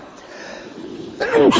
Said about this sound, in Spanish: Y eso que estamos en verano, pero en fin, no sé, estos estornudos.